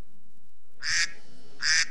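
Duck quacks used as a timer signal: two loud, short, nasal quacks with a brief pause between them and nothing else around them.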